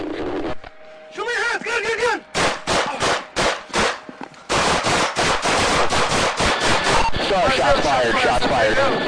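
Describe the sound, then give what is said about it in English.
A rapid volley of many gunshots in body camera footage of a police confrontation, sharp cracks bunching into a dense burst after a stretch of loud shouting voices. “Shots fired. 20 of them.”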